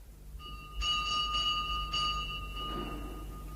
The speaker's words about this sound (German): beim Morgengrauen atemlos und entgeistert zum Pfarrhof rannte und an der Glocke riss